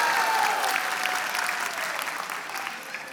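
Audience cheering and applauding at a live event, a dense, steady wash of clapping and shouts filling the whole stretch and easing slightly in loudness toward the end.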